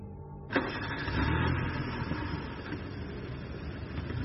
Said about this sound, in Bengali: সরকারি গাড়িতে রওনা দিলাম এক অজানা জায়গার উদ্দেশ্যে